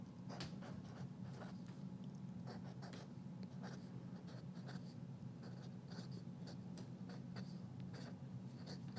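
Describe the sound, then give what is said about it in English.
A worn, fat-tipped Sharpie marker scratches across paper in many quick, faint strokes, a steady run of soft squeaky rubbing with no talk. “Gosh, this Sharpie's, it's getting really fat, so the stuff is just blending together.”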